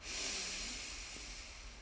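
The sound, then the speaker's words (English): A deep breath is drawn in during a guided breathing exercise, a steady airy hiss lasting almost two seconds. It is fairly loud and heard alone, with no talk over it. “And one last time, deep breath in.”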